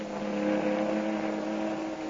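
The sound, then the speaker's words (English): A speedboat engine drones as the boat comes alongside a ship on the port bow in a radio drama. The motor is a steady, fairly faint hum with no clear rise or fall and no voices. “Captain, there's a speedboat coming alongside on the port bow.”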